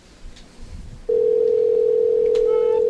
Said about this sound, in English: Here, I'm calling a random phone number, and I bet you this will be better. You just dial?